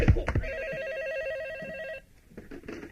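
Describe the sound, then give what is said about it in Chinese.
Telephone ringing: an electronic, rapidly warbling ring trills steadily for about a second and a half and then stops abruptly. A few sharp knocks come just before it and faint scattered sounds follow. “二哥，你的电话。”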